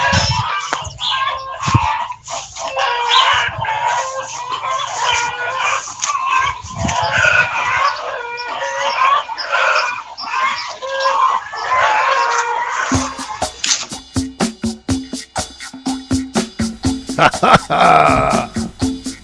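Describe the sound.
Chickens clucking and crowing: a loud, continuous chorus of overlapping hen cackles and rooster crows, followed by a stretch of rapid, rhythmic pulsing calls.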